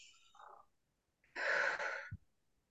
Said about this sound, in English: let's take a nice calming breath.